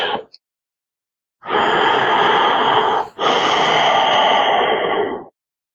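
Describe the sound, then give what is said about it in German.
A person breathes deeply in and out with eyes closed, concentrating. Two long, loud, airy breaths follow one another almost without a gap, each lasting close to two seconds and heard alone without any speech. “Wenn das so ist, atme tief ein, tief aus.”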